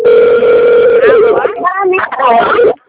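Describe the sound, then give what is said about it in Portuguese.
Telephone ringing with an incoming call: a sustained electronic tone holds steady for about a second, then gives way to wavering, voice-like sounds before stopping abruptly near the end. “Tem uma ligação aqui, você me ligou?”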